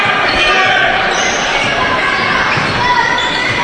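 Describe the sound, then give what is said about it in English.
A basketball dribbled during a game: the bounces are buried in a constant, loud wash of dense background noise, with a voice talking over it. “Still dribbling.”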